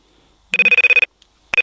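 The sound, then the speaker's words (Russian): A telephone rings with an incoming call in two bursts of rapid, trilling rings, the second cut off at the end. The rings are loud and clear, with no talk over them. “Да, звонок в эфире, слушаем.”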